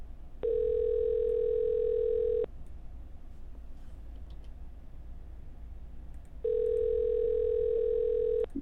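A telephone ringing tone sounds while a call waits to be answered: two long, steady, soft tones of about two seconds each, separated by roughly four seconds of quiet line hiss.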